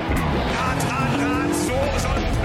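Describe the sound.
Racing truck engines roar side by side on a course with jumps, a loud, continuous heavy drone with tire squeal mixed in and a voice talking over it.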